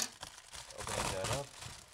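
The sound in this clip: Crinkling and tearing of wrapping paper as a gift package is opened, a faint, continuous rustle that swells briefly in the middle.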